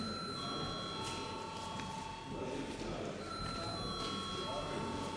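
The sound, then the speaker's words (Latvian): A sustained electric bell rings in a parliament chamber just before a vote, a steady metallic tone that holds for the whole clip over a low background murmur. “Lūdzu zvanu.”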